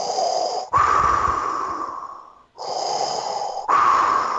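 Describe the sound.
A voice imitating heavy masked breathing: four loud, raspy, hissing breath phases alternating in and out in a slow, steady rhythm, with no words.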